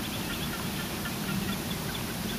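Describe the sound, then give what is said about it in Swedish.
A lone reed warbler sings at night: faint chattering, repeated notes set against a steady broad hiss that stays even throughout. “Det enda vi har är en rörsångare, en ensam rörsångare som sjunger lite grann.”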